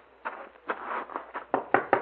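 Knocking on a door comes as a series of hollow, uneven raps, with the later knocks sharper and louder than the first.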